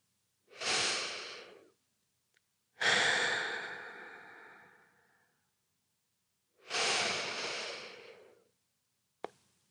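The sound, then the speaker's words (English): Three deep breaths drawn slowly and evenly, each a long, airy rush of air separated by short pauses, with a tiny click at the very end; no talking. “Close your eyes and take 3 deep breaths.”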